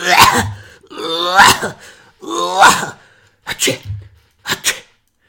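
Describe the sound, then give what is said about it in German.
A voice imitates a child's croup cough, giving five harsh, barking coughs. The first three are longer and throaty, and the last two are shorter and choppier, each separated by brief pauses. “Das war echt, wie sagt man, Krupphusten galore, was der da hier mir ins Genick geblasen hat.”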